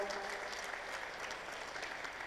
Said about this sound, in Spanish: Un voto de aplausos para ellos